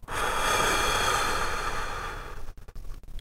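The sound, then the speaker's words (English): A long, slow breath during a guided breathing exercise focusing on the ribs: a steady, airy rush that lasts more than two seconds, then breaks up into brief, uneven puffs and fades. No one speaks. “Breathe out. Breathe in. Focusing on the ribs. Breathe out.”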